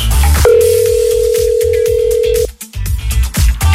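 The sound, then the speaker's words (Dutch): A telephone ringing tone as a radio presenter calls a listener: one long, steady tone lasting about two seconds over a continuous pulsing background that carries on after the tone stops. “Om die selectievraag goed te beantwoorden, gaan we contact leggen met Wilfred. Ik hoop dat hij opneemt.”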